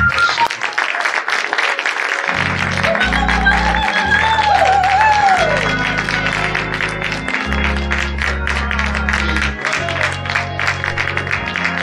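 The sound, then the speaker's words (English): Church audience clapping to welcome a speaker at a morning service: dense, continuous applause running the whole clip, with sustained low musical chords joining beneath it after about two seconds. “I want you to put your hands together and welcome to this morning.”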